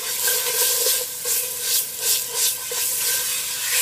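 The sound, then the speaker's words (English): Tomato paste sizzles in a pan with garam masala and turmeric, a steady bright hiss that swells and eases in gentle pulses as it is stirred, with no talking. “We're just gonna let the tomato paste cook just for a little bit.”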